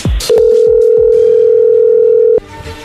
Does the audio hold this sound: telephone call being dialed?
yes

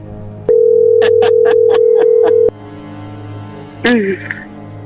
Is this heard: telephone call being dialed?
yes

